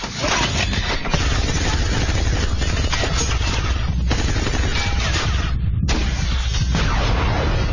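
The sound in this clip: Heavy weapons fire hammers the armored Chevrolet of the SHIELD director during a street car chase in Captain America 2. A dense, loud, continuous barrage of sharp bursts runs throughout, with one brief gap near the end.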